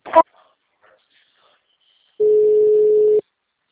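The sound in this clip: A telephone ringing tone sounds while a call is transferred: one steady, even beep lasting about a second, after a brief voice at the start and near silence.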